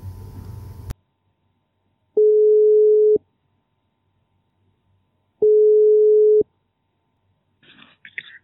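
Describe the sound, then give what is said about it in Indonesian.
A phone call rings out: two long, steady electronic ringback tones, each about a second, separated by a pause of silence, preceded by a burst of line noise and a click, with faint rustling at the end. “oke coba gue calling doi dulu ya”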